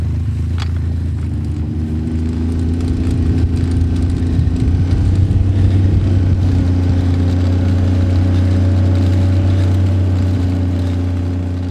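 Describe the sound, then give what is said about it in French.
A snowmobile engine runs steadily as it carries riders a short distance to an avalanche-dog training area. It makes a continuous low, droning rumble that stays even throughout, with no talk. “On fait environ 100 à 200 mètres sur une motoneige, histoire de se rendre sur le terrain de l'exercice”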